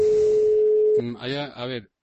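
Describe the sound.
Telephone call tone from an unanswered call to a school: one steady, single-pitch tone holds for about a second, then a voice starts speaking.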